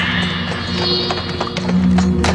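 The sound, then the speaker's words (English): Horses' hooves clop as horse-drawn caissons move slowly, a few soft, irregular hoofbeats over a steady low drone. “The horse-drawn caissons now slowly moving”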